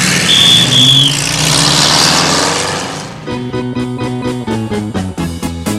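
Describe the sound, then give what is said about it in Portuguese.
A car engine roars as it speeds along a road at about 120, a loud steady rushing drone with a thin high whine for roughly three seconds before rhythmic music takes over. “Eu vou correndo a 120 pela estrada, com toda a força que existe no motor.”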